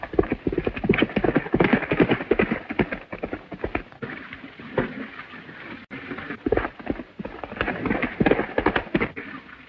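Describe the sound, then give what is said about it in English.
Horse galloping as its rider drives it hard in a fury: many rapid, loud hoofbeats that pound on continuously in a steady, driving rhythm without any talk. “Above, Zanti drives his horse in a fury.”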